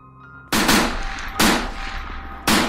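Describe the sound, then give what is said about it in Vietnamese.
Gunfire from militiamen firing into the air at a public denunciation gathering: three loud, sharp blasts at uneven intervals, each followed by a long, rumbling decaying tail. “Nhiều tiếng đạn vang lên.”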